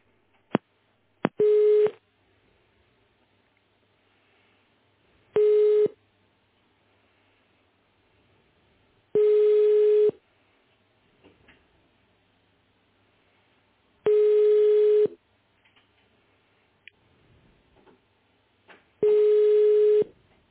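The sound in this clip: Telephone line tones play while a call to technical support is transferred: five evenly spaced bursts of a steady mid-pitched tone, each about a second long and about four seconds apart. Faint clicks fall between the bursts, and no one speaks.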